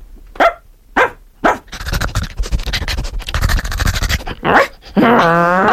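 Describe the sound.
A voice imitates a dog barking: a few short, sharp, bark-like bursts, then talk, then another bark and a sustained, buzzy, voiced tone at the end.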